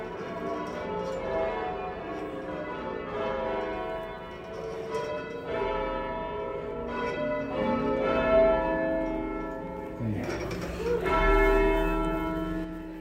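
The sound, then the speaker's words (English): A group of bell ringers sounds church bells in a continuous peal. Many overlapping metallic strikes of different pitches ring and decay into one another at a steady, dense rhythm throughout. “I'm happy to drive down from Boston to ring with this group of people.”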